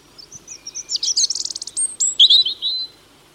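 A songbird sings from a prominent perch, heard alone: a high, varied phrase of rapid chirps, buzzy trills and thin whistled notes, fairly loud.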